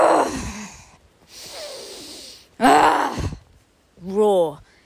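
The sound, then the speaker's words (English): Deep, aggressive breathing: a few forceful, heavy breaths in and out, loud and separated by short pauses, the last one voiced like a groan. “So yeah, moving, taking really deep breaths, really kind of aggressive breaths.”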